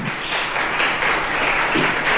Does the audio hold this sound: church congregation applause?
yes